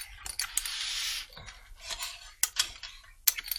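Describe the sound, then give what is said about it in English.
Rummikub tiles are mixed and drawn, with a rattling, sliding shuffle followed by a few sharp, irregular clicks and clacks. “All right, flip them over. Mitch goes first. Now mix them all up. And draw 14 tiles.”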